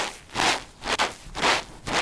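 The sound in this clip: Crunchy Foley footsteps in snow, produced by squeezing a small cloth bag filled with a cornstarch mixture; four separate compressed crunches in a slow walking rhythm, each a bright granular squeak-and-crackle burst, with quiet gaps between.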